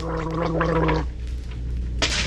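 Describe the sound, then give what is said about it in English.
Gargling with minty antiseptic mouthwash: a bubbling, throaty gurgle for about a second, then a quieter stretch, and a short bright burst of liquid sound near the end. “But now there's Wham Wash, minty and antiseptic gargle that alleviates sock mouth first thing in the morning and all day.”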